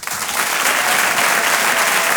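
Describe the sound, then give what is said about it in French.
Applause from a comedy club audience welcoming a performer to the stage: dense, steady clapping that rises quickly and stays loud throughout, with a little crowd noise mixed in. “Je vous demande un tonnerre d'applaudissements, s'il vous plaît, pour Walidia.”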